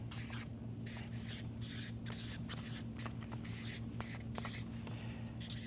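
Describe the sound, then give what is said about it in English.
Handwriting scratching across paper in a steady series of short strokes over a low, constant hum. “And so, let me just write that down.”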